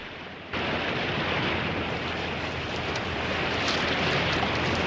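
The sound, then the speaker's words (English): Two warships at sea drawing alongside each other give a steady, broad rushing roar of water and wind. It starts abruptly after a brief quiet moment, then holds loud and even, swelling slightly toward the end. “The two warships draw alongside each other.”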